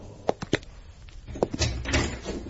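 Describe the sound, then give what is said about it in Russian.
A lock on an apartment door clicks shut as a heavy man leaves, giving a few sharp, close-spaced clicks followed by a duller, low rattling clunk. “Было слышно, как чмокнул замок.”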